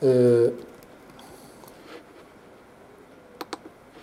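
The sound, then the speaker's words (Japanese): Keys pressed for the Windows Ctrl+Windows+arrow shortcut that switches virtual desktops: two crisp, separate key clicks near the end. They follow a brief burst of speech and a quiet, low stretch. “コントロールキーと Windows キーと左右のキーを押すと、ショートカットでこうやって切り替えることができます。”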